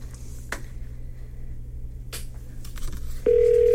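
A phone call rings out while trying to reach someone: a few faint clicks sound on the line over a low hum, then a loud, steady tone begins near the end and holds unbroken.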